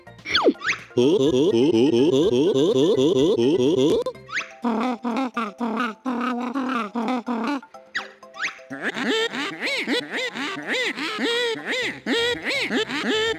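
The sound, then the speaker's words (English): Squawky, warbling gibberish voices of characters from the Banjo-Kazooie video game, chattering in three long animated bursts with quick, bouncy pitch wiggles and brief pauses between them. “All of the characters are voiced in a very strange way, which you'll hear now.”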